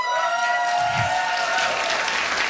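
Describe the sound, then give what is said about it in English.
Live studio audience cheering and applauding as past guests of Now or Never make some noise, a short, steady burst of clapping and voices. “If you have ever been on Now or Never, make some noise.”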